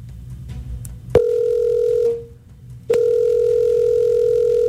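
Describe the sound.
Long, steady ringback tones from a telephone call that goes unanswered: one sustained tone, a brief pause, then a second tone running to the end, loud and unbroken with no voices.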